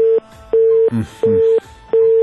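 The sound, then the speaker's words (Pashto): Disconnect tone from a dropped phone call: a steady mid-pitched beep that repeats in an even on-off rhythm, sounding about four times, loud and clear. “د عبدالوارث امیری تماس مو سره قطع شو”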